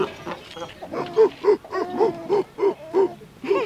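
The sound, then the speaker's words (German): Seals bark in a steady series of short, hoarse, mid-pitched calls, repeating about every third of a second, moderately loud. “Na ja, das sind die Robben oder Seehunde, nicht?”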